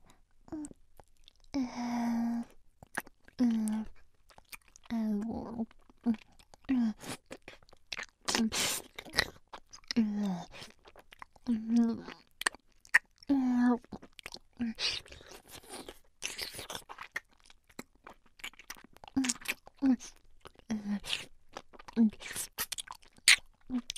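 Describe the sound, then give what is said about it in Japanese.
Licking with the tip of the tongue in an ASMR recording, many faint wet smacks and soft clicks in an irregular rhythm, mixed with quiet breaths. “ではまず舌先で全体を舐めるように。”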